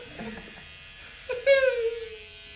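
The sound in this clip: Electric hair clippers buzz briefly during a live bowl-cut haircut, a steady mid-pitched drone that sags slightly in pitch before fading, following soft murmured talk.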